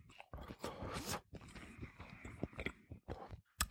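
Someone chews a bite of potato pancake with bacon and chives, making soft, close, crunchy bursts in an irregular rhythm with brief pauses between them.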